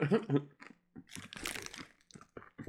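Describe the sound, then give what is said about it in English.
Crunchy chewing of a chip snack tasting of Reese's peanut butter, with many irregular crisp crunches and crackles of varying loudness close to the mouth. “It sounds like you're eating a potato chip right now. You don't taste the chip. You just taste Reese's.”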